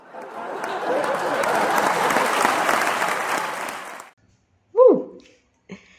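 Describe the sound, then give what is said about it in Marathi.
Audience applause at the opening of a talk: steady, dense clapping for about four seconds that stops abruptly, followed by silence and then two short vocal sounds. “एकदा टाळ्या वाजवा.”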